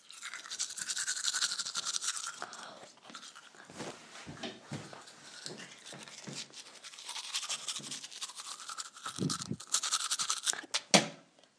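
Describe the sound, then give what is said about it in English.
Teeth being brushed with a toothbrush and toothpaste, with a steady wet scrubbing of bristles against teeth in quick back-and-forth strokes that swell and dip in loudness throughout. “I'm using a toothbrush and a toothpaste and a sound of my mouth.”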